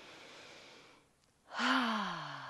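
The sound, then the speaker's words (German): A deep breath taken during a guided concentration exercise: a soft airy inhale fades into a short silence, then a louder breathy sigh follows, its voiced tone sliding down in pitch. “Mach das mal mit einem tiefen Atemzug.”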